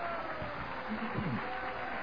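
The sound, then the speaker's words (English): A church audience claps hands in worship, a steady wash of many hands at moderate volume. A brief voice sounds over it midway. “Would you clap your hands and worship the Lord?”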